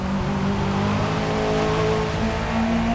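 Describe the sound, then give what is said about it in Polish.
Aggressive car engine revving in the Forza Motorsport racing game: a loud, sustained, throaty drone with steady layered harmonics that shift slightly in pitch, heard alone without talk. “Na dźwięk silnika, który stał się zdecydowanie bardziej agresywny”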